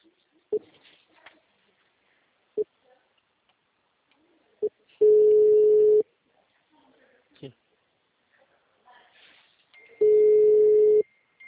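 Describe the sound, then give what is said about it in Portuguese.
A telephone line tone sounds while a call is being placed: two long, steady, even-pitched beeps of about a second each, spaced well apart, with faint clicks and brief noises in the quiet gaps between them. “Gente, silêncio que eu vou fazer uma ligação.”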